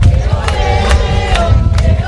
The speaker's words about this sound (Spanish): Saludos desde el barrio de Vegueta, en el centro de Las Palmas de Gran Canaria, en plena ruta del Papa Móvil, donde miles de personas están esperando para ver a León XIV